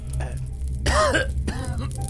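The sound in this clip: A person who has just woken and cannot speak lets out a single hoarse, throaty cough or throat-clearing burst. A fainter rasp follows it, over a low steady hum.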